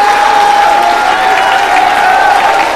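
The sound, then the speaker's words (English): A church audience claps their hands during a worship service, producing loud, continuous, dense applause, with a faint steady tone sustained beneath the clapping throughout. “I wonder before you're seated if you would clap your hands one more time.”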